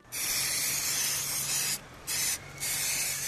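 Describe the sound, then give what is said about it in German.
Perfume, a well-known international brand fragrance, sprayed from an aerosol can: three steady hissing bursts, a long one, a brief one, then another long one, separated by short silent pauses. “der ihm einen internationalen Markenduft einer weltbekannten Firma vorgeführt hat, aus der Dose.”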